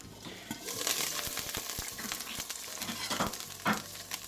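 Two thick sirloin steaks, about three centimetres thick, sizzle in a frying pan. The loud frying hiss runs steadily throughout, dotted with many sharp crackles and pops.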